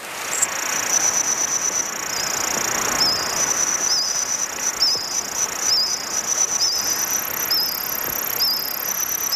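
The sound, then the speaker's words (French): Reconstructed chorus of Jurassic insects in a forest: high, rhythmic cricket-like chirping pulses repeating steadily over a dense, continuous high-pitched buzzing background. “C'est le son de certains insectes du Jurassique.”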